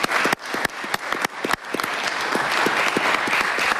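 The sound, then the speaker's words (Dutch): A meeting bursts into applause to approve an appointment by acclamation. A few scattered claps come first, then they quickly build into full, steady clapping from many people. “Kunnen wij dan bij acclamatie mevrouw Witte benoemen, is het, hè?”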